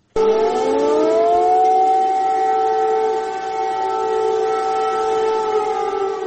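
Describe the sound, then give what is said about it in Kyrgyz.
Air raid sirens warn of a missile threat in Kyiv on a morning. A loud wailing tone rises in pitch at the start, then holds a long, steady, sustained drone with no voices. “Биринчи декабрдын таңында баш кала Киевде ракеталык коркунуч тууралуу эскерткен сиреналар кайрадан жаңырды.”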